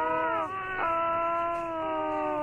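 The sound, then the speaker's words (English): A child crying in long, sustained wails with a steady, tonal pitch and a slight waver, sounding thin and narrow as if heard over a phone line. “I can hear the child crying, I can hear her upset about it”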